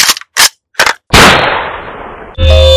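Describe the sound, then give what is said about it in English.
A 12-gauge shotgun blast, fired to blow up a pecan pie, booms loudly after three short, sharp bursts and rings out in a long, fading roar before cutting off into a different tonal sound. “I'm going to blow up the pecan pie that my boss brought into work this morning using a 12-gauge shotgun. Here goes.”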